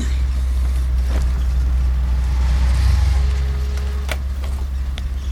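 A car drives with a steady, low engine and road rumble that holds at an even level throughout, with a few faint clicks and no voices.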